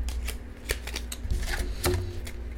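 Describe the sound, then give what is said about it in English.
Tarot cards are handled and gathered up, producing many crisp snaps, flicks and papery slides in an irregular rhythm, fairly quiet and with no talking. “And as I'm cleaning up the cards, I'm checking to see if there's any other ones I need to take.”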